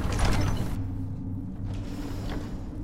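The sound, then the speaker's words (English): A big temple door mechanism grinds open in a video game, with a steady low mechanical rumble and faint gear-like rattling. It is strongest at the start, then settles into an even, continuous drone. “All right, this is the big door.”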